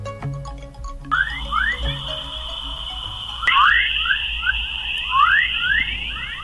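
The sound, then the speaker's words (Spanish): Earth as heard from space, rendered as sound: warbling, rising electronic-like chirps repeat over a steady high whine and a low hum, and the chirps grow louder and denser partway through. “somos tan distintos, que fijaros cómo suena la Tierra a través del universo.”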